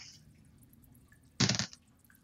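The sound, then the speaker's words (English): A severed head splashes into water during a fantasy tabletop game, heard as one short, loud, wet splash that stands out sharply against a quiet background. “so that's enough to lop this motherfucker's head off, and it goes bloop into the water”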